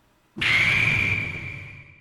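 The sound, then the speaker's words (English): A big hit sound effect from the video game Super Smash Bros.: a sudden hard impact that opens into a bright, sustained ringing tone, which slowly fades over nearly two seconds. “something big has happened, like a critical hit. Here's one from Team Fortress 2. And here's a sound from Super Smash Bros.”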